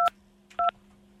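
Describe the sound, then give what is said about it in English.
Telephone keypad dialing tones sound as two short, crisp clusters of electronic beeps separated by a brief pause, clear and alone against a faint steady hum. “I've been trying to dial out of this place for 15 years.”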